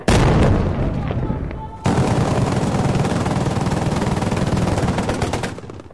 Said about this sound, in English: The rebel forces just fired a single artillery piece, a long tube with a big shell in it that looked like it was a relatively homemade affair on the back of a pickup truck.